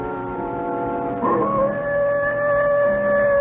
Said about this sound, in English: That wolf again.